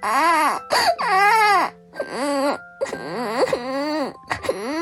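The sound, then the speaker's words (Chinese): A child wails and sobs at home during a pandemic lockdown, in loud, drawn-out, tonal cries that break into several bursts with short catches of breath between them. “你怎么秒哭了？”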